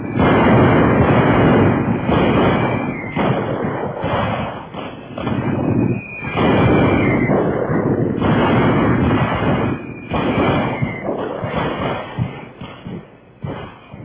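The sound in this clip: Artillery gunfire plays as a sound effect in a radio drama. Many heavy blasts and booms roll into one another, forming a loud, dense, rumbling barrage that swells and dips throughout with no clear gaps.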